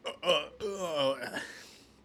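A forced, deliberate burp from a person comes as a few rough, throaty voiced pulses with wavering pitch, the longest one in the middle, heard alone without talk.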